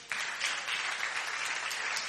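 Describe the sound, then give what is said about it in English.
A church audience claps for the worship team, a faint, dense and steady patter of many hands that continues evenly throughout. “By the way, give a very big hand clap to the worship team.”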